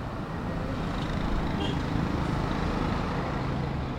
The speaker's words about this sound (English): The ship memorial is right next to the road, hence the constant whir of vehicles.